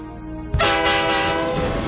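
Train noise inside a carriage full of people: a steady low tonal hum gives way to a sudden loud rush of rolling rail noise with sustained horn-like tones that continues to the end, with no voices.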